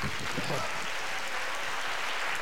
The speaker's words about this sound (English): I haven't said anything and I get applause.